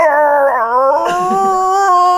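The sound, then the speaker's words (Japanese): A person imitates a dog into a radio microphone with a loud, wavering howl about two seconds long. The howl dips in pitch midway, then holds a steady, strained tone. “ラジオマイクに向かって吠えてる”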